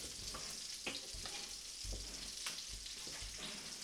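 Grease sizzles as a griddle is scraped clean with a giant piece of kielbasa at a Super Bowl party. A faint, steady crackle runs throughout, broken by a few short scraping bursts.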